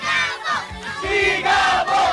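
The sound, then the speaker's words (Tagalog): A crowd shouts the battle cry "Sigabo!" in unison. Several loud shouts come in a rhythmic run, with short dips between the bursts. “At ang sigaw ng bayan! Sigabo! Sigabo!”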